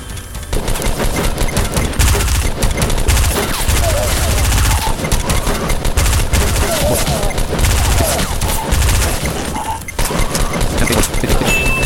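Video game gunfire roars in a dense, continuous fusillade of rapid shots and bursts, loud and unbroken throughout, with crashing impacts mixed into the barrage.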